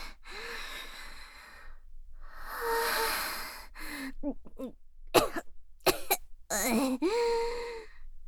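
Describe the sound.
Someone coughs and chokes on a strong smell in a room. Ragged gasps and strained voiced breaths give way to a burst of many sharp, harsh coughs, then a final moaning gasp.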